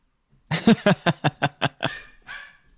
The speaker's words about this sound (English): Sorry about my dog.